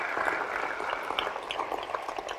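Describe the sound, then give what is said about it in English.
A church audience claps together to honour God during a worship service. It is a short, dense burst of applause at an even level, with a few louder slaps poking through the wash of hands. “Come on. Let's give the Lord a hand clap.”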